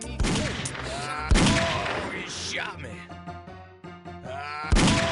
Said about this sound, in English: He shot me. I'm coming to get you. He shot me.